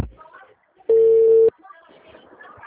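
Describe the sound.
A telephone tone after a dropped call: one steady, loud, mid-pitched beep lasting about half a second, with faint, muffled talk before and after it.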